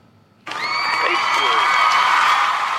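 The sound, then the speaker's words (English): A studio audience bursts into loud cheering and applause to welcome a guest, with whoops and shouts. The noise starts abruptly, then holds as a dense, sustained roar. “the studio audience is going crazy.”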